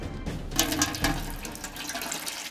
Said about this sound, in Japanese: 粉と砂糖と塩を混ぜて、水を加えながら